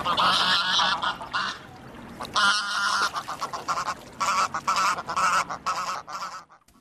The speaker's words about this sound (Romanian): Am învățat că gâsca de vară sigur că nu seamănă cu gâsca de iarnă, pentru că gâsca de iarnă migrează.